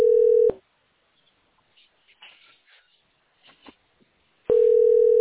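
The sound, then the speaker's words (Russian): Ringback tone of an unanswered telephone call: a steady mid-pitched buzz at the start, a pause of about four seconds containing a few faint rustles and clicks, then the same tone returning. “Ну что, не хотят они трубку брать? Плевать. Наверное. Это не заканчивается. Я уже 20 минут звоню.”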